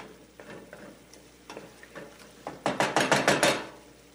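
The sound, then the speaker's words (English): Tortellini stirred into sauce in a pan: soft, scattered clinks and scrapes, then a louder run of rhythmic stirring strokes with a faint sizzle, and no talk. “So I've added the tortellini to the sauce. I'm just going to combine this.”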